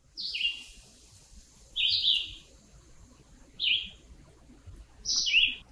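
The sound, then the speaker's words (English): Red-eyed vireo song: four short, high, clear chirped phrases, each under a second, separated by pauses of about a second, over a faint steady background hiss. “Let's take a listen to that red-eyed vireo again.”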